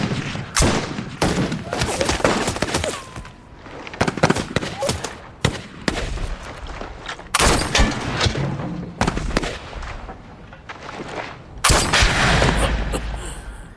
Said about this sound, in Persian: پس فقط به سنگر مرکزی شلیک کنید.